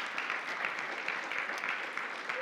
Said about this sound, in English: So let's give them a round of applause. Every volunteer.